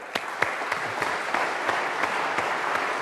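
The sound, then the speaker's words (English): An audience applauds to welcome a speaker before question time. The clapping is steady, dense and even, with a few sharper individual claps standing out, and no voices are heard. “It's always a good thing to have applause”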